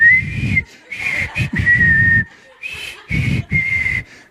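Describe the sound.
A man whistles a tune in a shower cubicle, clear and high in several short phrases separated by brief pauses. The melody holds a fairly steady pitch with small note changes.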